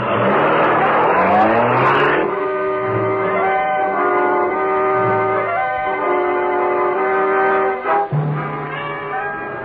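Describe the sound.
A supercharged car accelerates away, its engine revving up in a loud, rising whine over the first two seconds, then holding a steady droning tone with a brief dip near the end.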